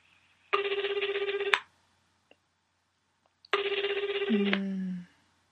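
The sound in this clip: A telephone rings on an outgoing call: two trilling, rapidly pulsing ring bursts of about a second each, separated by a silent pause. A low tone overlaps the tail of the second ring.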